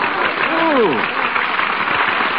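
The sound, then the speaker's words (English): An audience applauds Dr. Lister from England at a gathering: a dense, continuous wash of clapping. A voice briefly sounds over it early on, and then the applause carries on evenly. “Whom are they applauding? It's Dr. Lister from England.”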